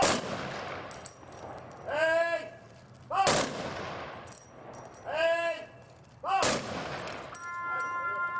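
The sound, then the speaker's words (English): Three volleys of rifle fire crack out in a military salute at a Veterans Day remembrance ceremony. Each sharp, loud burst decays into a ringing tail before the next, spaced about three seconds apart. “military bands play, and soldiers fire guns into the air in a salute to remember those who died in service to their country.”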